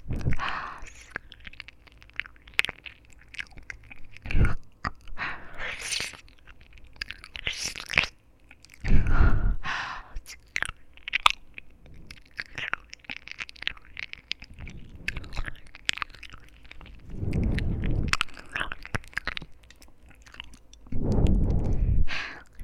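Close biting and chewing on crunchy little ears, heard as many irregular, crisp and wet mouth bursts of varying loudness, with soft breathy noise between them and a few heavier crunches near the end.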